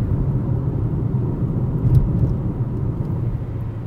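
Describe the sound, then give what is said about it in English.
Interior of a car driving home on the road near Grants Pass. A steady, low engine and road rumble continues evenly throughout, with no talk. “I'm near Grants Pass right now on the drive home.”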